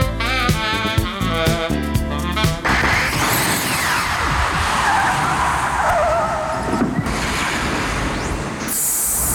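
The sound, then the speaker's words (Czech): A DeLorean car skids away as a time-travel effect. A short musical opening gives way to a loud, sustained screech and roar of skidding tires, ending in a sudden bright, high burst. “přenastavujeme náš DeLorean a uslyšíme se za 10 let.”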